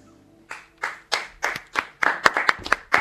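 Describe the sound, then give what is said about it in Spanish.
A small audience claps in sparse, uneven handclaps. The claps come more quickly and grow louder toward the end, with no voices heard. “Aplaudan que si no queda triste. Somos muy poco acá.”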